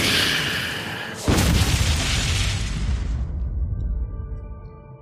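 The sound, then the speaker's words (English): A deep boom as a tent engulfed in a fireball explodes in a tabletop role-playing game scene, bursting in abruptly over a noisy roar and trailing into a long, slowly fading rumble. “And the entire tent explodes.”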